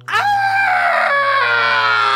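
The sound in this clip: A woman's shriek after an axe sticks in her back, one sustained, piercing, high-pitched scream lasting about two seconds, loud and steady with no other sounds.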